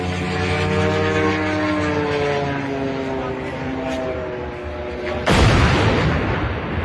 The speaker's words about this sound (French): et ça, c'est le son d'un drone qui percute une grue de chantier. Vous savez, une immense grue de chantier dans la banlieue de Moscou